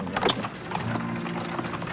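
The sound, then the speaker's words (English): Horse hooves clip-clopping as a horse pulls a buggy, with a few sharper hoof strikes early on followed by quieter, continuous clopping under a fairly soft, noisy background. “Thomas and Ishmael arrive back at Brimfield in their horse-drawn buggy.”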